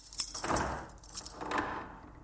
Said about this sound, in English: Door shuts. It's heavy metal door. They lock it. And they walk away.